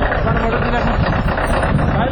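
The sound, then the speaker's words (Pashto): Steady, loud rumble of loaded cargo truck engines idling and running in Paktia province, a dense low drone with no break across the whole stretch. “راپور د بارونکو موټرو په شخ پیلېږي.”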